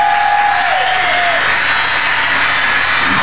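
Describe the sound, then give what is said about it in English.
Audience applause and cheering for the guests of a live panel show: a dense, loud, unbroken wash of clapping with crowd noise throughout. “can y'all give it up for all my guests that was on this panel?”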